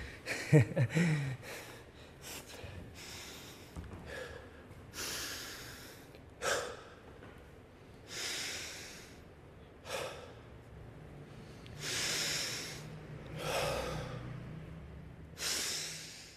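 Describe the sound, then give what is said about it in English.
Deep, heavy breathing: a slow series of loud, airy inhales and exhales, each breath drawn out and separated by short pauses, with no talk. “3 big deep breaths. That's all you need.”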